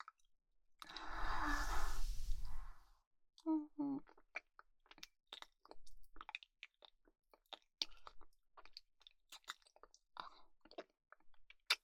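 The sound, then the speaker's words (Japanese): Close, quiet wet chewing of rice: a soft breathy rush first, then many irregular squishy mouth clicks and smacks in an uneven rhythm. “まずは君が食べやすいように、お姉ちゃんがご飯をかみかみしてあげるね。”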